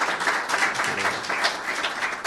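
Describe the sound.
Audience applause welcomes a guest at an Embassy of Ireland book club event: dense, steady clapping from many hands that holds at an even level for the whole stretch, with no talk over it.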